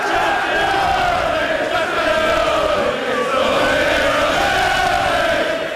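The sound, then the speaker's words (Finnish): Manchester City fans celebrate a league title in a London bar, with a dense, loud crowd roar of shouting and chanting voices that stays at full volume the whole time. “Ja tältä meno kuulosti lontoolaisessa baarissa, kun pitkään odotettu mestaruus ratkesi.”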